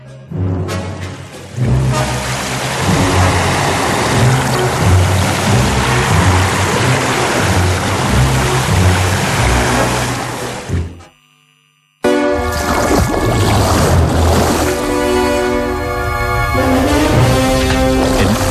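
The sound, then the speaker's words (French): A dugout canoe is pushed into the sea amid a loud, continuous rush of surf and churning water. The roar breaks off briefly near the end, then resumes just as strong. “Alors la pirogue à la mer. La pirogue à la mer.”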